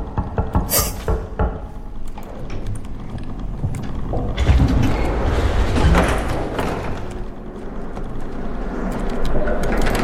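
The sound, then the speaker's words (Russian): Door handles being jerked and jiggled while people wait for a locked door to open: a few sharp clunks and knocks at the start, then a longer stretch of dense, rattling noise. “дождаться, пока нам дверь откроют, да? Пока подергаем ручки.”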